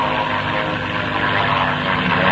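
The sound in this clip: A propeller airplane going into a vertical left bank roars in a loud, dense, steady drone of engine and rushing air, with no clear change in pitch.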